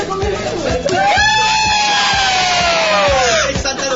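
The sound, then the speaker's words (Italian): A loud crowd celebrates with shouts, whoops and a long drawn-out yell. The microphone is overloaded, so the sound comes out harsh and distorted, and regular low thumps run underneath. “il microfono è saturato, noi qua stiamo festeggiando”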